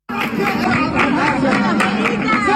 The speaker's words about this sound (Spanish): Y este es el sonido de anoche a las puertas de la Peña de la Bulería, aquí en Jerez.